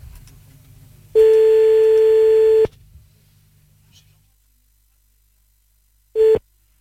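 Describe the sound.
Telephone line tones as a call is placed: a loud, steady electronic tone holds for about a second and a half, then after a quiet gap a second short burst of the same tone sounds.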